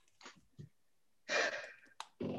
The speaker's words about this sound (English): Deep breath, take in some air.